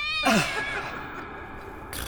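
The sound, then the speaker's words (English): A cat gives a single meow with a falling pitch, clear and fairly loud over a faint background hiss. “I really want that cat to mess up the whole affair. What? Go on, then. Oh, come on, kitty, kitty, kitty, kitty.”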